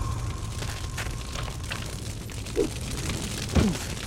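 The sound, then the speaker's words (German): Fireball explosions in a video game, heard as two short muffled bursts rising from a steady, noisy game soundscape. “Da kommt ein Fireball. Noch einer.”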